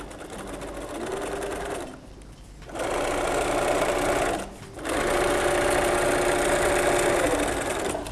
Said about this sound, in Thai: แล้วเราก็วางลงเราก็เย็บนะคะมันถึงจะเย็บได้สุดแล้วเราก็ย้อนกลับมาอีกหนึ่งครั้ง